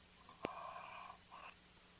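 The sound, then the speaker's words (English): Heavy, wheezy breathing comes over a telephone line on a sports call-in show. A faint click is followed by a long whistling breath and then a shorter one. “A lot of weird breathing going on there.”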